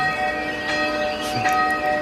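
A church bell ringing, heard as a sustained wash of steady, layered metallic tones holding at an even loudness throughout.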